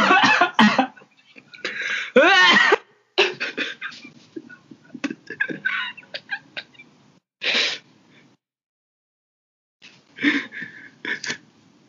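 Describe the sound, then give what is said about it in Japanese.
Coughing from someone choking on a sip of Evian, a hard mineral water, during a water tasting: harsh, loud bursts in several uneven fits separated by short pauses, trailing into quieter coughs. “すごいむせてる”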